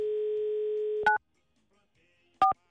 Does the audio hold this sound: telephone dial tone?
yes